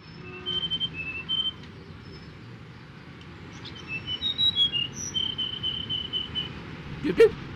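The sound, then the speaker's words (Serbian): Sparrow chirping near a busy crosswalk amid city traffic: several short, high, whistled chirps and tweets scattered over a low, steady rumble, with a sharper, louder call near the end. “Pa to je moj drug, vrabac Živko.”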